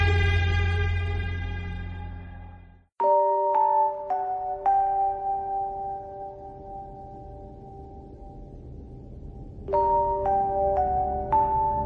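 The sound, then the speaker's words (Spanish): A tall English clock crowned with bronze statuettes chimes slowly, in two groups of four bell-like notes whose clear tones ring on and decay between the groups. “El pensador oyó sonar pausadamente, cayendo del alto reloj inglés que coronaban estatuillas de bronce, las 12”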